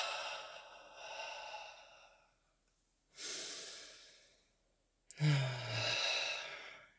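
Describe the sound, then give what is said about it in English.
Slow, deep breathing during a guided breathwork meditation: long, airy breaths are drawn in through the nose and let out through the mouth. A few soft, steady breath sounds are separated by brief quiet pauses. “Take a deep breath in through the nose, out through the mouth.”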